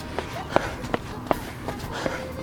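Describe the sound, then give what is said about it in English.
Footsteps of runners being passed on a bridge fall in a steady, even rhythm, with about seven soft thuds over a continuous low background hum. “Let's pass some runners again on the south side.”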